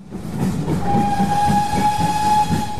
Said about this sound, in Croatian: Pisak čirine lokomotive, oblaci pare i uskotračna pruga rijetko se mogu vidjeti i doživjeti kao turistička atrakcija.